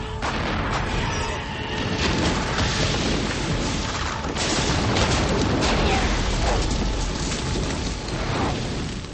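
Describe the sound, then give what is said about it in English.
A roaring blast of blue fire incinerates creatures and their clutches of eggs. The roar is a dense, loud, unbroken rush of noise that stays steady for the whole clip, with no voices. “As Hellboy struggles with the Samaels, Liz stands with her arms outstretched and unleashes a blast of blue fire which incinerates the Samaels around Hellboy and also their clutches of eggs.”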